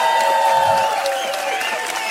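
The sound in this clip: A concert audience claps and cheers to call the band back for an encore. Dense, continuous clapping is mixed with sustained cheering voices and holds at a steady level, easing slightly toward the end.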